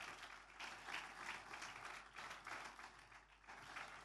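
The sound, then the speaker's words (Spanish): Faint applause of praise from a church audience during a conference service, a soft continuous wash of many hands clapping that swells and eases without pause. “De ese aplauso de alabanza al Señor.”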